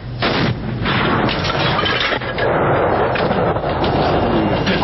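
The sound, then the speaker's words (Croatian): Heavy booming of a 120 mm mortar being fired, with deep, loud reports that merge into a dense, continuous rumble with no clear gaps. “zvuk ispaljenja iz minobacača od 120 mm”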